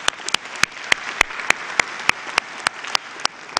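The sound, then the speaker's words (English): An audience in the room applauds for online and television viewers. Many sharp individual claps stand out in an even, regular rhythm over a softer bed of scattered clapping. “For those of you who are in the room, would you please give a big hand to our online television audience?”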